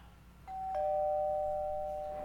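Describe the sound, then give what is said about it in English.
A doorbell chimes two tones, a higher note and then a lower one. The lower note rings on and slowly fades, alone and fairly loud. “Doorbell, that's right.”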